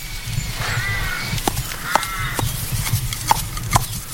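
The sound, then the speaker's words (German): Horse sounds: a few sharp knocking thuds alongside short tonal, harmonic calls, fairly loud and with no talk over them. “Ich glaube, es ist ein Tier. Ja, ich glaube sogar ein Ross.”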